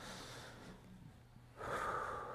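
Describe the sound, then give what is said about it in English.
Deep, cleansing inhale taken while seated during a guided relaxation exercise: a faint, airy, hissing breath that swells noticeably louder and fuller in its second half. “Take a nice, big, deep, cleansing breath.”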